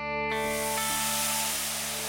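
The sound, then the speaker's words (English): Food sizzles on a backyard barbecue grill with a loud, continuous hiss that starts abruptly and holds steady over sustained musical tones. “Today, we're following our nose to the backyard where we fired up the barbecue grill. Time to find out what's cooking in country music.”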